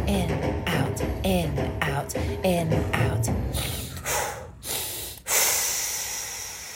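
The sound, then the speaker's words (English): Deep breathing in and out during a guided breathwork session; a voice speaks through the first half, then a few loud, rushing breaths follow alone. “Let's breathe in, out, in, out, in, out, in, out, in, out, in, out, in, out.”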